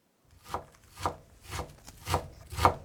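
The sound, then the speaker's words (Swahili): A knife chops onions and mushrooms on a board in five crisp, evenly spaced strokes, each a short woody thud with a scraping edge, with no voices. “Kwanza tutakatakata vitunguu na uyoga. Katakata vitunguu kiurefu kwa mpishano wa takribani milimita 2, kisha ukikate kuanzia pembeni vipande vidogo vidogo.”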